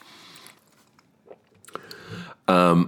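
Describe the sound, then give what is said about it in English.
Chewing on the last half of a sandwich: soft, moist bites and mouth sounds in a few scattered bursts, followed at the end by a louder, brief voiced sound. “I paused you guys so I could finish the other half of that sandwich.”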